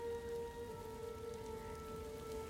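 Rain falls in a soft, steady hiss, faint and unbroken throughout, with no voices heard.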